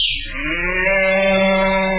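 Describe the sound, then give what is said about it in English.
A cow moos as a shapeshifter turns himself into a nice fat old cow. One long, loud moo starts high, drops in pitch and then holds a deep, steady bellow to the end. “could you change yourself into a... say, a nice fat old cow? Nothing to it. Watch.”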